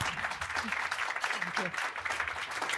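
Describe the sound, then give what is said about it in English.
An audience applauds to welcome a panel at a public event, with dense, steady clapping that holds throughout and a voice faintly audible under it. “So let's give our panel a warm welcome.”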